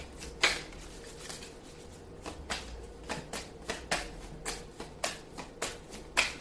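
Tarot cards being shuffled and drawn, a faint run of many crisp paper flicks and taps in an uneven rhythm, with one sharper snap near the start and no voices.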